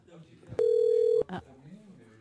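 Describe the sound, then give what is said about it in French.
A single steady telephone tone rings out for about half a second as a phone dials a number. Voices talk before and after it. “Attention, ça va numéroter.”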